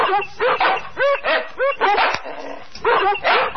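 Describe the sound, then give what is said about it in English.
Dogs bark and yip in a rapid run of many sharp, overlapping calls with a few whimpering tones, fairly loud throughout. “Are you constantly bothered by the noise of barking dogs?”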